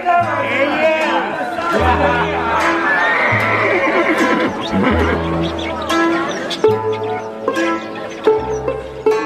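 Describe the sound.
A white horse neighs several times in loud, wavering whinnies, mixed with voices talking and a low repeating tone beneath.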